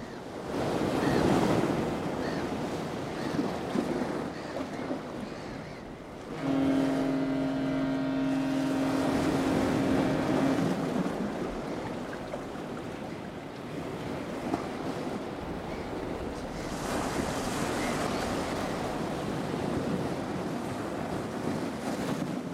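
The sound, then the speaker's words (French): Sea waves surge and roar with wind buffeting throughout, while a low, steady tone with overtones, suggesting a waiting ship, hums for several seconds in the middle. “Et après Où on va à la mer. Un navire nous attend.”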